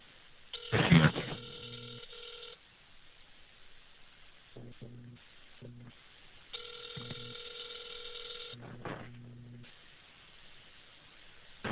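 A telephone call being connected: a few bursts of buzzy electronic ringing tone, separated by short gaps, with a loud thump near the start and a faint line hiss underneath.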